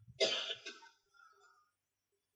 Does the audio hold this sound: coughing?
yes